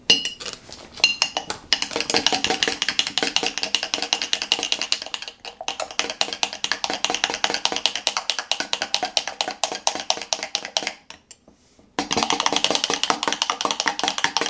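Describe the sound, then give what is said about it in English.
Rapid, steady clinking of a spoon stirring superfood creamer with MCT oil into a drink. Continuous light metallic ticks run throughout, with one brief pause near the end before the stirring resumes. No talk. “It's a superfood creamer. It's actually pretty good. So I'm gonna mix that in.”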